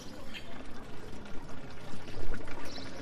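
Water flowing from a village fountain in Saint-André-les-Alpes, a steady, faint pouring and splashing stream with small uneven surges.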